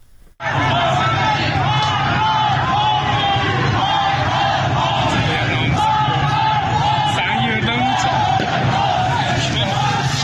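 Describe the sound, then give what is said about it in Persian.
Protesters in Izeh, Iran, chant slogans against the country's leadership. After a brief quiet start, a loud crowd of voices bursts in and keeps up a forceful, continuous chant with shouted yells. “این اعتراض‌ها از جمله در شهر کرد، اندیمشک، درود و ایزه رخ داده و در آن معترضان علیه رهبر جمهوری اسلامی و دیگر مقام‌های نظام شعار دادند. صدای ویدیویی از ایزه را می‌شنویم.”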